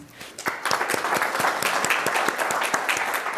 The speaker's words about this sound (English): Please join me in giving a warm welcome to Professor Bungay.